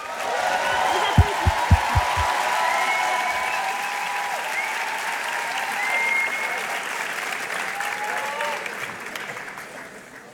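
Audience applause welcomes a band onstage at a music award evening, with a few soft thumps early on. Loud, steady clapping with light cheering continues throughout, then tapers slightly at the end.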